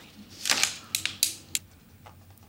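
A ballpoint pen's tip is clicked out before signing a book, heard as a few sharp, dry mechanical clicks at irregular intervals over a faint, quiet background.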